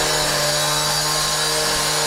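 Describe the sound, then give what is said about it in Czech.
A tiler's power saw cuts outdoor paving tiles outside a new indoor swimming pool under construction in Blansko, giving a steady, loud, gritty grinding whine over a constant low hum without pause. “Jeden z obkladačů řeže u budovy nového krytého bazénu venkovní dlažbu, která lemuje vstup dovnitř.”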